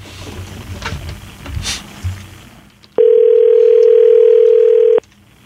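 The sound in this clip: A single steady ringback tone sounds for about two seconds while a phone call is being placed, loud and unbroken, after a stretch of low background rustle.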